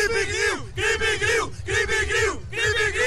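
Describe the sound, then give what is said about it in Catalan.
A group shouts its team war cry in unison, four loud, identical chanted bursts in a steady rhythm, each separated by a brief pause. “Quin seria el crit de guerra? Quan és el crit de guerra?”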